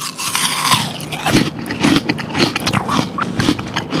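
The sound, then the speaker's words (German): Crisp crunching as teeth bite into a juicy, slightly tart Kanzi apple, with loud crackling bursts of crunching and chewing running through the whole clip, with no talking. “Das ist jetzt ein Kanzi. Der ist eher, hat ein bisschen Säure auch, aber der lässt sich eben auch sehr gut lagern und ist jetzt wirklich, der schmeckt jetzt so eigentlich wie frisch vom Baum fast. Na, dann probiere ich ihn mal.”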